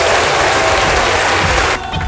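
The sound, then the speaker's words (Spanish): Audience applause at a meeting on provincial contingency plans: loud, dense clapping that drops off abruptly shortly before the end. “¡Aplausos, por favor! ¡Aplausos!”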